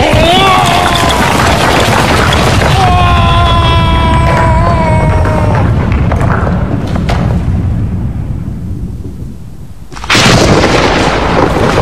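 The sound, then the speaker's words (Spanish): A gunshot is fired at a tree in an animated show dubbed into Latin American Spanish. Dense rumbling and voices fill the scene, and a loud, abrupt blast bursts out near the end. “Le disparó al árbol.”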